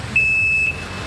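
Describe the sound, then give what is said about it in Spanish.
A truck's reversing alarm as it parks outside: a single high, steady electronic beep lasting about half a second, over a faint low rumble. “¡Ah, un camión! Que está estacionándose allá afuera.”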